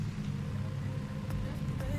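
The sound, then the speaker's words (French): A BMW M3 E46 rally car in division 4, with a Luxembourgish crew, arrives at a rally stage, giving a fairly faint, low engine rumble that holds steady, with a few brief higher sounds near the end. “Nouvelle BMW M3 E46 ici qui arrive.”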